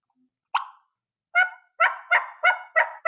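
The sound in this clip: A human voice imitates a turkey's front end yelp, the call used when hunting turkeys. One short nasal note comes first, then after a pause a steady, evenly spaced run of sharp yelps, loud and with no talking.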